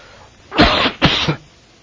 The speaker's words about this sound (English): I'm at the end, I'm going to have a coughing spell.